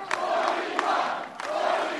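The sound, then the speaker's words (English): Crowd at Scott Brown's election victory celebration chanting "forty-one" in unison, three loud, rhythmic shouted bursts spaced about half a second apart, each rising out of a lower background murmur of the gathered supporters. “At Brown's victory celebration, the crowd chanted 41 in a reference to Brown's promise to be the 41st vote Republicans need to stop the Democrats from passing their health care plan.”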